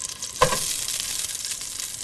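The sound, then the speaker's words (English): Ginger and fatty pork frying in a lightly oiled pan, a sharp hiss as the food drops in, followed by a steady bright sizzle that stays fairly loud. “Sasha then drops the ginger in the pan, and a sweet aroma fills the kitchen. And then in goes the pork to sear.”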